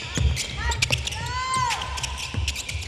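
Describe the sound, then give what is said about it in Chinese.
A basketball bounces on the court during a women's team shooting practice: a few firm thumps at an uneven pace, with high squeaks in between. “大声呼口号，队内训练正式开始。从维持手感的中远距离投篮，”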